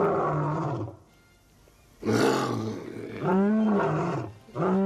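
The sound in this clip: A lion roars in a circus setting with several loud, deep, growling bursts. Each burst swells and then fades, and a short quiet gap falls between the first and second.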